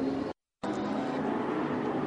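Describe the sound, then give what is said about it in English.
On-board engine roar of a race car with a hesitating throttle, a loud steady buzzing drone interrupted by one brief silent gap near the start. “On board with Anthony Vince. You could just hear the hesitation in the throttle.”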